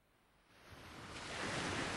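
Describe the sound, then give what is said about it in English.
Waves roll onto a sandy coastline in a broad, hissing wash that swells steadily from soft to fuller and louder, with no voices over it. “Waves gently roll onto a sandy coastline beneath a cloudy sky.”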